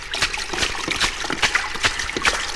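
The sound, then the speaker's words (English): Water sloshing and splashing, heard as a series of several quick, bright splashes in an uneven rhythm, fairly steady in loudness, with no voices over them. “what's that sound I hear? That's water sloshing.”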